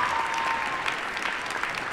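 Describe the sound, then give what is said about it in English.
Enthusiastic applause fills a high school graduation ceremony, a dense, continuous wash of many hands clapping at an even, moderate loudness throughout. “You can tell by the enthusiastic applause that everyone in the school knows his story.”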